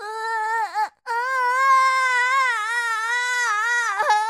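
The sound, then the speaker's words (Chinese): A voice imitates a little boy's loud wailing cry. It is a long, wavering, high-pitched wail that breaks off briefly near the first second, then resumes and carries on with trembling pitch. “啊啊啊！嗯，哇哇哇哇的大哭了起来。”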